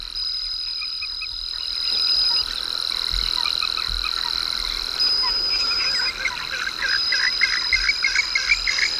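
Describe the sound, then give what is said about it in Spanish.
Frogs croak with a throat-membrane resonator, giving rough, buzzing calls that become a rapid pulsing series toward the end. High, thin insect trills and whistling tones run steadily over them. “los anfibios, que utilizan un resonador. En vez de utilizar un cañón, un barranco, utilizan una membrana que tiene en la garganta para que su voz suene rota”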